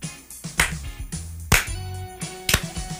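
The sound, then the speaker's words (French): A slow clap: a few loud, sharp claps spaced about a second apart, each standing out above a steady musical background. “Mais un slow clap, tu sais.”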